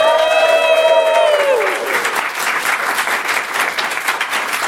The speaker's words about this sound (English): that amazingly enthusiastic sound you just heard is our live studio audience who are here basking in the glory of Aaron's beard